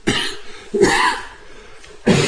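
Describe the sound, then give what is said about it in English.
Three harsh, throaty coughs, spaced irregularly, with a quieter raspy stretch between the second and third. “This cough. I do apologize.”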